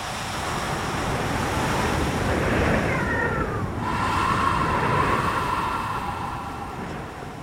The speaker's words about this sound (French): il y a une vague qui remonte un peu plus et elle vient vous mouiller les pieds.